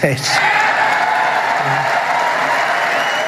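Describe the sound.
Applause fills a hall after remarks by US President Donald Trump: a dense, steady wash of clapping that holds an even loudness throughout, with crowd voices mixed in.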